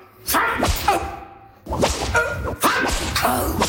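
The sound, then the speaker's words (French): A whip lashes a kneeling man's bare back. Three sharp strikes come at roughly even intervals, each a loud crack trailing into a rough swishing noise, with no voices. “20 coups de fouet à ce vagabond! Toi, défais ta chemise. À genoux. Maintenant, frappe”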